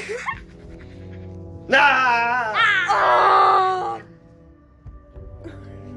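A person screams for about two seconds in a loud, drawn-out, wavering cry whose pitch bends up and down. Quieter stretches with faint background sounds come before and after the scream.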